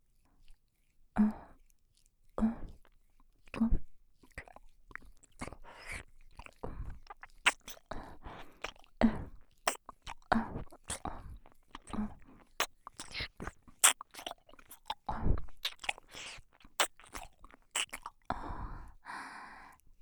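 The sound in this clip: Gentle ASMR nibbling near the ear: many soft, wet mouth sounds and small bites in an irregular rhythm, quiet and close, with light breaths between them and no talking.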